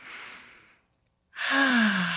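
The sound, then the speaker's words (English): A short breath drawn in is followed by a brief pause, then a longer, louder exhale that becomes a voiced sigh, its low hum sliding downward in pitch. “if you do the opposite, a shorter inhale and a longer exhale,”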